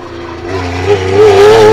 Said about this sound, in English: Is that another Porsche? Certainly. Very hard to tell. Yes, another 911 Carrera.